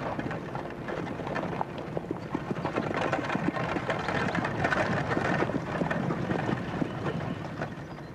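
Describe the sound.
Hooves of a horse, a mare, clip-clopping at a steady pace: many quick, dense knocks run without pause under a constant rumbling, wind-like noise, with no voices.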